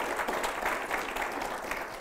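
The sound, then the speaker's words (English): Congregation clapping hands during a church service, a steady, dense wash of applause that holds at an even level for the whole two seconds, with no talk over it. “Would you give Jesus a hand clap for that?”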